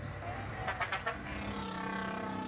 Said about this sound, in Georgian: ავტობუსები ძალიან ხმაურობენ.